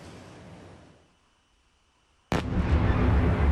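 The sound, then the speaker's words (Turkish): An explosion during a night Russian missile and drone attack on Kyiv. A low rumbling noise fades into a quiet pause, then one sudden loud blast bursts in and continues as a sustained, heavy roar. “Birbiri ardına gelen patlama sesleri ve yükselen alevler.”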